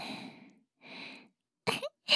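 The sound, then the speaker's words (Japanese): A teacher breathes heavily through the nose: two long, hissing breaths are followed by two short, sharper snorting puffs. “先生の鼻息が荒いわ。”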